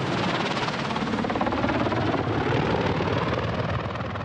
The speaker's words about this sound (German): So klein ist der Landeplatz, dass der Hubschrauber gar nicht richtig aufsetzen darf.